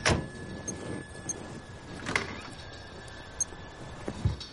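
A person getting into a car, with a few faint door and handling knocks and clicks over a quiet, low background, no voices.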